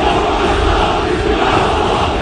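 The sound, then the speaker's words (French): Hundreds of Turkish fans chant at Istanbul Atatürk airport to greet Mohamed Salah, a loud, continuous roar of massed voices that stays dense and steady throughout. “Ils étaient donc plusieurs centaines à chanter à la gloire de Mohamed Salah quand le pharaon a fait son apparition à l'aéroport Atatürk d'Istanbul”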